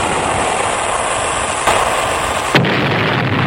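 Cannon fire aimed at a ship: a loud, sustained roaring rumble of dense noise with two brief surges partway through, and no voices.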